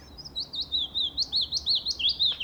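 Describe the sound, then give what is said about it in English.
A tiny migratory bird sings a quick run of about ten high, clear chirping notes in close succession over faint background noise. “You've got a good chance, especially if you're in the northwest, of starting to hear this like descending little riff around about late April. Yeah, this tiny little bird does a huge migration,”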